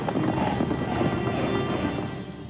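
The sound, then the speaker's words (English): A herd stampedes in The Lion King: a dense, thundering rumble of many pounding hooves that runs continuously and eases slightly toward the end. “The herd is on the move.”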